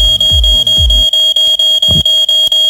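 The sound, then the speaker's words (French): A smoke alarm blares a loud, piercing, high-pitched electronic tone, pulsing in a rapid, steady run of beeps with brief gaps between them. “Et puis c'est vrai que l'alarme pour ceux qui sont en train de s'endormir là, ça peut être pas mal également.”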